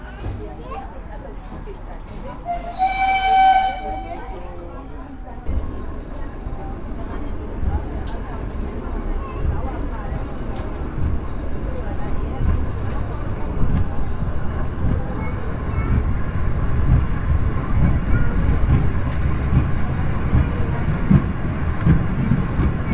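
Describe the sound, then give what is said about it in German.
A small T3 steam locomotive sets off and runs slowly at under 20 km/h through a cornfield. A brief high whistle-like tone comes near the start, followed by a steady low rumbling that builds gradually. “Und das Bähnle zuckelt mit nicht ganz 20 km/h durchs Maisfeld.”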